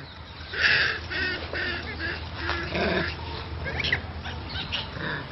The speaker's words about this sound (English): That is the sound of toque macaques.